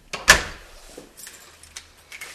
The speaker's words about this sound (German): Jetzt schließt sie zufrieden die Wohnung hinter sich ab, die Besichtigung ist beendet